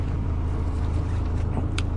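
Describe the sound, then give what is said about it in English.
A van is being driven, with a steady low engine rumble and road noise that holds an even loudness throughout, plus a brief faint click near the end. “It's not an option, though, because I gotta drive this bloody van.”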